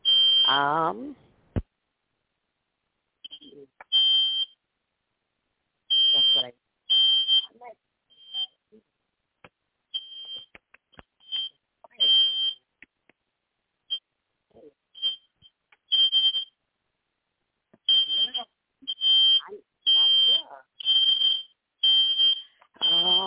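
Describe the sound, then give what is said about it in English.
A smoke alarm going off in a house sounds piercing, high beeps in irregular clusters over about twenty seconds, with a voice speaking briefly between some of them. “I have a fire alarm going off in my house”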